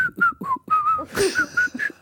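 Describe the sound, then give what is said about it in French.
A person whistles a short tune: a quick run of bright, clear notes that rise and dip in pitch, loud and on its own. “Quelle est la règle concernant le sifflotement? Voilà, est-ce que siffloter est autorisé?”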